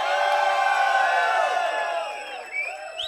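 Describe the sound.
A festival crowd in Dahab, Egypt cheers loudly and continuously, with whoops and shouts blending into a dense roar that eases slightly toward the end.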